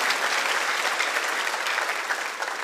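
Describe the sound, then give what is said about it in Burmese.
Dense applause from a church audience clapping in praise of God during a Sunday afternoon sermon, a steady, fairly loud wash of many hands that continues unbroken from start to finish. “လက်ခုပ်တီးလက်ဘုရားကိုချီးမွမ်းရအောင်။”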